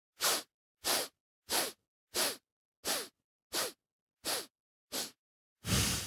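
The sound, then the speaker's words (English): Eight short, sharp inhales through the nose, evenly spaced and equally loud, come during a breathing exercise and are followed by one longer, fuller nasal exhale. No one speaks. “it's a short inhale through the nose like this.”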